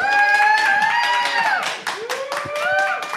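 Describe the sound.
A small live audience of four people cheers and claps, giving continuous whoops and wavering hollers over a steady layer of clapping that stays loud throughout.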